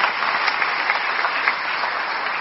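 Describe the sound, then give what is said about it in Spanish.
Applause from the audience at a church celebration with a bishop: dense, steady clapping at an even level for the whole moment, with no talk over it. “Un aplauso para él.”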